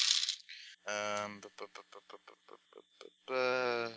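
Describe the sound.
Eight dice rolling on a table, a quick series of many sharp, ringing clicks between two longer, brighter bursts of sound.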